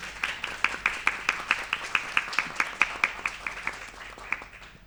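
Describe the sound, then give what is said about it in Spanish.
An audience in an auditorium at an arts festival fair claps for the artists in a fairly faint, rhythmic run of many evenly spaced claps that thins out toward the end. “Y quiero un fuerte aplauso para los artistas que están aquí presentes.”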